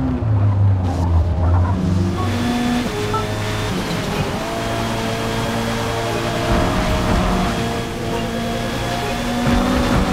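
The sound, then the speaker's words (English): A car engine in a racing video game slows to the pit speed limit. Its loud, steady engine drone carries layered tones throughout, with no talk. “Your car slows to the pit speed limit.”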